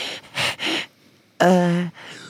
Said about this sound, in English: Deep breath in.